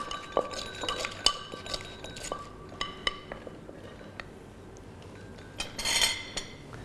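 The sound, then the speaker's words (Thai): A pestle pounds Thai papaya salad in a mortar, making a run of sharp knocks and clinks at an uneven pace, some louder than others, with a dense cluster of rattling taps near the end and no talk. “เสร็จเรียบร้อยก็โขลกอีกครั้งหนึ่งครับ”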